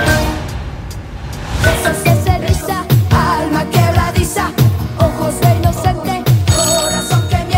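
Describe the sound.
A mobile phone rings with a loud, repeating rhythmic ringtone of bright tones and beats that runs throughout with no talk.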